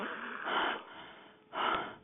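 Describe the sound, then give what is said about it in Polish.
Two breathy gasps from a small boy who lost consciousness after going to sleep, as he starts breathing again during resuscitation. Each is a short, soft, noisy intake that swells and fades, with a quiet pause between them. “Czekaj, on już oddycha chyba!”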